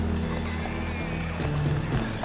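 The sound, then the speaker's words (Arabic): Horse hooves clip-clop steadily as horses draw Qarun's chariot in a procession. The dense, continuous hoofbeats are fairly loud and sit over a low droning layer. “انظروا إلى عربة قارون، الأعمدة كلها من الذهب الخالص.”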